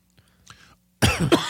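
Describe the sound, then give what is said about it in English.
A person coughs after choking on air. A few faint breathy sounds come first, then two loud, harsh bursts of coughing and throat-clearing. “excuse me. Choked on my own air there for a second.”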